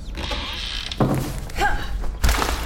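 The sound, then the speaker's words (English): A hatch is opened upwards in an audio drama, giving a few mechanical thunks and creaks, with a heavier thud near the end. “Let me in this minute or I'll shoot this hatch to pieces. It opens upwards, Alestes. You can let yourself in.”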